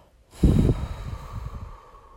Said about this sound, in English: Take a deep breath in and open your mouth and just release it out.